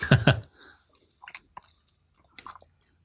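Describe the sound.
Chewing of a plain pie with a dry mashed-potato top and bits of carrot: a brief voice-like burst, then faint, sparse, moist clicks and small crunches spread across a few seconds.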